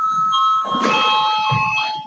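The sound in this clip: An electric bell rings in a parliament chamber to call members to a vote. It gives a steady, high ringing tone for about two seconds, with faint low rustling underneath.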